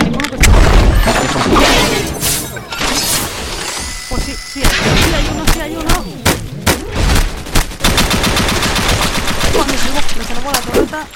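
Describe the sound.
Turret gunfire in a video game: rapid bursts of automatic shots mixed with heavy explosive blasts and shattering crashes, loud and continuous with sharp repeated impacts throughout.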